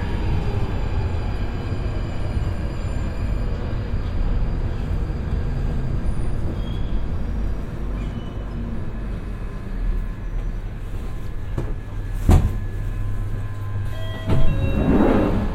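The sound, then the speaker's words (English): A London Underground tube train at a station gives a steady, heavy low rumble with a broad hiss above it. A few brief knocks and clunks rise out of the noise near the end. “That was the sound of the tube train rolling into rest at Good Street Station on the London Underground.”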